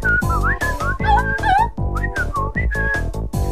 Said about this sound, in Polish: i teraz solo gwizdowe.